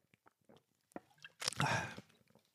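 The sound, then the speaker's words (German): Someone takes a sip of cola. Faint small mouth clicks lead into a short, wet slurping burst, followed by a few more quiet clicks. “Ich brauche noch einen Schluck Cola. Moment, wollt ihr hören?”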